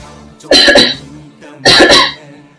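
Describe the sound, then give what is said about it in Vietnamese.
Two loud, heavy coughing fits from a man, each a harsh, raspy burst with a doubled peak, separated by a short pause. “Một hơi cười, hắn lại nặng nề ho lên.”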